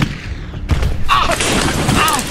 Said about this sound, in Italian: D'accordo, ora gli sparo, prendo la mira.